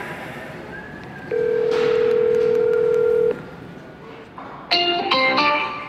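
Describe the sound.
A telephone call being dialed: a steady, clear single tone holds for about two seconds, then after a pause a quick run of short touch-tone beeps sounds at a fairly loud level.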